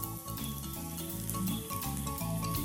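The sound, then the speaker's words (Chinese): Mushrooms pan-fry in a hot pan with a continuous soft sizzle and light crackle that stays fairly even, dipping briefly once before resuming. “这个也是五菇，我们就剥小下去煎。”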